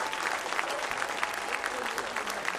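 A Now Church audience claps in welcome for a pastor: steady, dense applause from many hands, fairly soft and even throughout.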